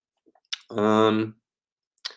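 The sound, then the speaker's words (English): A computer mouse clicks twice, two sharp, brief clicks about one and a half seconds apart, with a short voiced hum between them. “Let's click into Tampa Bay. Let's click at week 3, these two teams played.”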